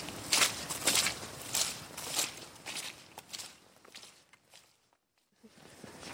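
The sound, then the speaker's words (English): Footsteps walking along a country road at the edge of a farm, landing in a steady, evenly paced rhythm that grows fainter until near silence falls. “Walking along the country road, along the edge then of what was Miss Julia White's farm.”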